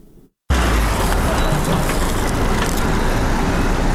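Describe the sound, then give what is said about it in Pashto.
Motor vehicles loaded with medical and non-medical supplies and medicines for new health centres in Uruzgan province, Afghanistan, make a loud, steady roar of engine and road noise. It starts abruptly after a brief quiet moment and continues without a break. “دا ژغونه د هغه موټرو دي کوم چې په طبي او غیر طبي وسایلو او د غراز په درملو باندې بار دي.”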